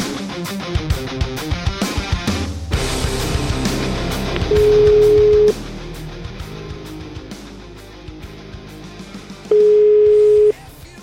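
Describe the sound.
Ringback tones from an outgoing telephone call: two steady, evenly pitched one-second beeps several seconds apart, sounding over busy background music.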